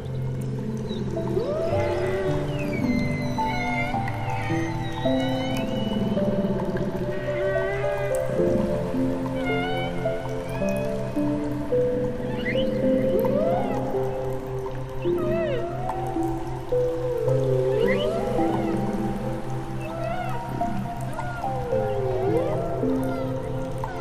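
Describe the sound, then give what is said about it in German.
Humpback whale song: a long series of moaning calls, with sweeping upward and downward whoops and higher squeals, over a steady low drone. “Und so lässt du dich auf dem Wasser treiben und lauschst dem magischen Konzert der Buckelwale.”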